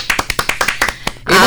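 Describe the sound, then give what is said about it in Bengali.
Sharp hand claps for quiz winners on a Bengali quiz segment: a quick, evenly spaced run of loud individual claps that ends in a dense, sustained burst of noise. “তাহলে যে বন্ধুরা বললে দেবায়ন বন্দ্যোপাধ্যায় এবং গৃহপ্রবেশ, তাদের জন্য একটা জোরে হাততালি।”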